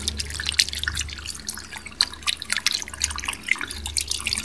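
Running water from a tap while hands are washed, a steady hissing splash with irregular drips and splatters on top, moderately loud and heard without talk.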